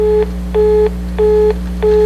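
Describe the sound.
Telephone busy signal after a dropped call: a loud, steady-pitched tone pulsing on and off in short repeated beeps over a constant low hum.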